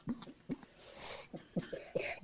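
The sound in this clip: A person coughs quietly in a few short bursts, with a breathy hiss between them.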